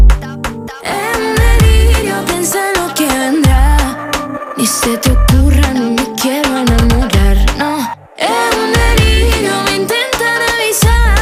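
A pop song, the debut single released after winning Operación Triunfo 2025, plays loud and continuous with full instrumentation and brief dropouts in the mix.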